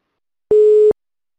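A single short, steady telephone tone while placing a call, lasting under half a second and heard alone against silence.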